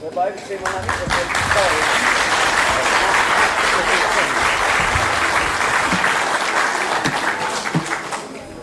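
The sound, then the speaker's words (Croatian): Applause at an evening folk music performance: many hands clapping that build up after the first second, hold thick and steady, then thin out near the end, with voices heard over the clapping. “Ima pljesak za sestru Ružu.”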